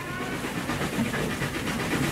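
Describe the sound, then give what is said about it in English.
A train pulls into Waterloo Station, its steady low rumble carrying a rhythmic clickety-clack of wheels over the rails, moderately loud throughout. “On the Friday morning, we were waiting for the train on the platform at Waterloo Station.”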